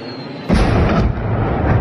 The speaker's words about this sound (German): Dann das Geräusch eines einschlagenden Geschosses, eine Explosion und dann dasselbe von der anderen Seite.